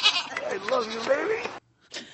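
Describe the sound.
A pet goat bleats once, a long quavering cry that wavers up and down in pitch, then breaks off; after a short silence a brief rough burst follows.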